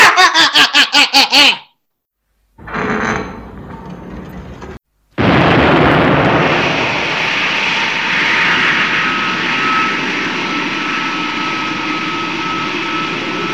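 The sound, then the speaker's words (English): A rocket ship launches and breaks away from Earth: a rapid run of pulsing bursts, a pause, a short rushing blast, then a sudden, sustained loud roar with a faint high whine running through it. “This rocket ship is breaking away from the Earth with the speed of light, right into the path of the new planet!”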